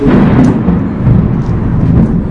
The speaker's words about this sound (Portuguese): Pois é, é a tempestade lá da igreja.